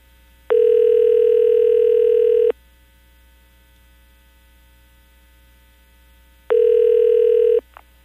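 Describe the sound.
Ringback tone of a telephone call ringing through, two long, steady, buzzing rings separated by a pause, the second cut short, over a low constant hum.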